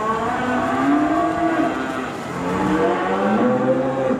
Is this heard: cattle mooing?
yes